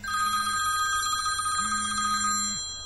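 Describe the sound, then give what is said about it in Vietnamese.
A telephone rings with a steady, high electronic bell tone that sounds throughout without a break, while a lower tone sounds twice beneath it. “có tiếng chuông điện thoại ngân”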